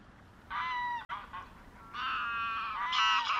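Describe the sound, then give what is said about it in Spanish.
Geese honk in Doñana National Park in southern Spain, several bursts of nasal, harmonic calls over a soft steady background hiss. “hemos viajado ahora hacia el sur y estamos escuchando los sonidos del Parque Nacional de Doñana.”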